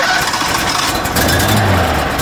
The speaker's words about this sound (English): This Across Indiana segment takes us to Terre Haute, Indiana, where hovercraft pilots from across the country fire up their crafts